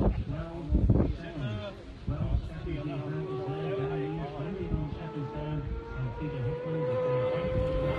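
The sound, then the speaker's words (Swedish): An all-orange motorcycle approaches, its engine a steady droning whine that grows clearer and holds a sustained tone to the end, with wind noise around it. “Fjärran, här kommer något, ska vi se. Helt orange motorcykel.”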